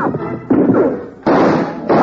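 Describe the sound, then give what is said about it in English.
Gunfire sound effects from a radio western drama: four sharp, loud shots, each trailing off into a ringing echo before the next one fires. “the three of them found themselves in a flurry of gun smoke as they were fired on from the hill.”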